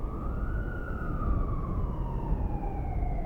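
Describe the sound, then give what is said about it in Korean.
A wailing emergency siren sounds over a low traffic rumble. Its single tone rises slowly, then slides gradually downward, staying steady and moderately loud throughout. “어디서 사이렌 소리가 났지만 더 이상 요인은 밀려오지 않았다.”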